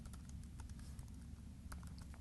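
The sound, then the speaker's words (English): Code being typed on a computer keyboard: quick, faint, uneven clicks of keystrokes in a steady run. “Or of course, I could type simply something as console.WriteLine. Say hello world.”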